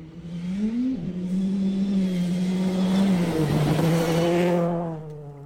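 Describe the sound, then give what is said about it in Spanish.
A rally car engine roars in a race as the car takes a 90-degree bend and a chicane. The loud, continuous drone briefly climbs in pitch, then drops and holds steady before tailing off. “Pero vamos a escuchar un ratito el motor. En carrera, en una curva de 90 y una chicana.”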